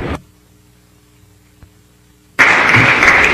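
Applause welcoming guests in a legislative chamber: after a brief burst and a near-silent pause, loud, dense clapping breaks out suddenly and carries on to the end.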